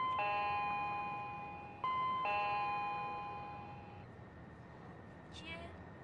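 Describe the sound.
A doorbell chimes at a closed door as visitors wait outside, ringing clear sustained tones that are struck again partway through and then slowly fade to quiet.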